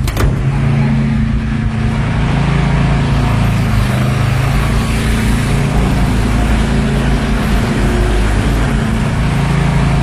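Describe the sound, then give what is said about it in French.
A diesel generator runs in a street in Kyiv, a steady, loud, low engine drone that holds unchanged for about ten seconds with no voices. “Là, c'est un bruit très, très quotidien à Kiev qu'on entend avec vous, Emmanuel Chaz. Voilà. Alors, en ce moment, on ne l'a pas, mais surtout cet hiver et ce printemps, c'est le bruit des générateurs. Donc ça, c'est un générateur diesel.”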